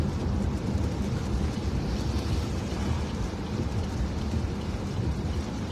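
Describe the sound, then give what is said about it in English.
Steady rain falling on a Saturday night during a police manhunt, a dense, even hiss of drops at constant loudness with no voices. “Again, Saturday night, it's raining.”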